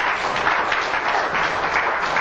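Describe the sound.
Congregation applause in a church: a steady, dense wash of many hands clapping, sustained and even in loudness throughout, with no distinct individual claps standing out.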